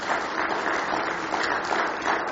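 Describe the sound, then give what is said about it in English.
Applause from a church audience welcoming visiting family members: a steady, even wash of many hands clapping at moderate loudness, with no distinct individual claps standing out. “Would you just raise your hand? Give them a nice hand this morning.”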